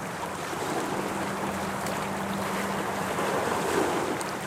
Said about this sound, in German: nämlich Hamburg an der Elbe. Hier hören wir sie.